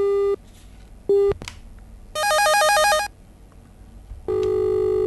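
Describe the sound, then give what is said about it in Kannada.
Electronic telephone tones signal an incoming call: two short beeps, then a bright warbling ring burst, then a sustained steady tone, all loud and without talk. “ಮುಂದಿನ ಕರೆ ಬರ್ತಾ ಇದೆ, ನೋಡೋಣ ಯಾರು ಕರೆ ಮಾಡಿದ್ದಾರೆ.”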